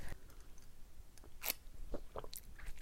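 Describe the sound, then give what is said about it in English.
Coffee being sipped in close-up mouth sounds: a few short, wet slurps and lip clicks, quiet and spaced irregularly, with no talking. “a little bit of coffee ASMR today”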